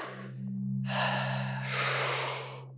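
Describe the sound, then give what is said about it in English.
Deep breathing through the nose or mouth during a breathing exercise: two long, airy breaths, a strong inhale and a lighter exhale, heard clearly over a steady low hum. “it starts with some deep breaths, probably about 30 really deep breaths. So it's a deep inhale and a lighter exhalation.”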